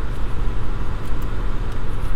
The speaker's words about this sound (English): I apologize for the noise here. Today I'm driving the old hoopty, and it's noisy.